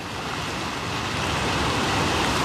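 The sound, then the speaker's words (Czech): Ocean waves make a steady, rushing wash of surf that keeps on without a break, with no separate crashes standing out, and grows slightly louder toward the end. “Držte vlny, ať k nám tak rychle neplují.”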